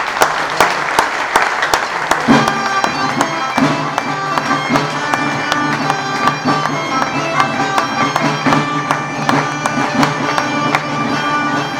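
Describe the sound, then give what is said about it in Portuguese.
Sustained audience applause at a ceremonial reading of the Aveiro town charter, with clapping rolling on evenly for around twelve seconds. “Podereis aplaudir. Se fazer o favor.”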